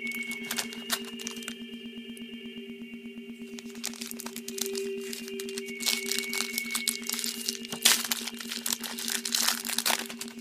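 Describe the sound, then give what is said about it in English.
Crinkling and tearing of a trading card pack wrapper, many sharp crackles and rustles that grow busier toward the end over a steady tonal hum. “These two packs are stuck together. And then I have to like, there we go. Let's open this pack”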